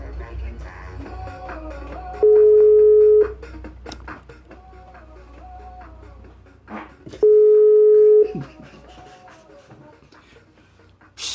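Telephone ringback tone on a live call: two long, steady, loud tones, each about a second, spaced several seconds apart over a busy, fainter background.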